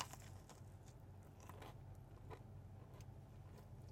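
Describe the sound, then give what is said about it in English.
Faint crunching bites and chewing into a peanut butter pretzel brownie Crumbl cookie, a run of soft, crackly crunches over a low background hum, with no talking. “Let's eat some crumble cookie. Starting with peanut butter pretzel brownie.”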